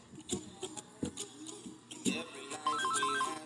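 A telephone ringtone in an office plays a short melodic pattern of high electronic beeps near the end, after a few sharp clicks.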